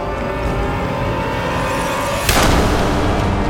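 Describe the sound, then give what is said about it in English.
Volley of gunfire from men ordered to shoot after a signal shot: after two seconds of steady low rumble, a sudden loud burst breaks in and carries on as dense, overlapping crackle to the end. “Even before the fusillade that followed Brandt's signal shot, Smoke”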